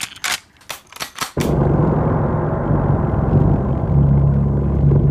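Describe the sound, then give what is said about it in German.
Steady engine and road rumble of a car driving at high speed toward the Dutch border, a loud continuous low roar with a droning hum, opening with a few sharp knocks. “Wir fahren mit hoher Geschwindigkeit in Richtung der holländischen Grenze.”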